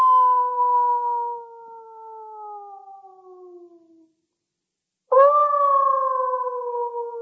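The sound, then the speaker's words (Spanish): Wolves of the hills howl in the distance: a long, sustained howl that slowly sinks in pitch and fades out, then a short silence before a second strong howl starts abruptly and holds steady. “En la lejanía, aullaban los lobos del monte.”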